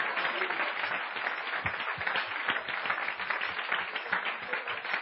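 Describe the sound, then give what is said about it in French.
A church audience claps during a sermon, producing a steady, dense patter of hands that sounds somewhat muffled and continues evenly throughout. “Clap for Jesus. Acclamons Jésus. Acclamons Jésus. Acclamons Jésus.”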